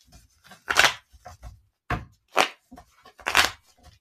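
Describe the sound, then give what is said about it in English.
Tarot cards being shuffled and drawn: a few crisp, papery bursts of card handling, with quieter rustles and soft taps between them and no talking. “Let's get your tarot card.”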